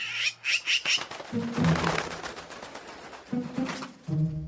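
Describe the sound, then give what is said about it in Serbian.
A magpie squawks in a city setting: harsh, rapid chattering bursts repeated in a quick run, followed by more ragged, noisy calls. “Pero, Pero, vidi, došao nam je svraka.”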